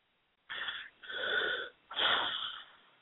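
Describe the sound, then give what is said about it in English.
A person taking deep breaths: three long, loud breathy sounds with a wheezy rasp, separated by short pauses, the last one the strongest. “he took too deep of a breath for this one.”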